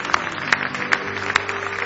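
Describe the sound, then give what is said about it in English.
A church audience clapping hands in praise, a few loud unison claps falling in a steady, even beat over sustained low musical tones. “Now give him a big hand clap of praise if you love him.”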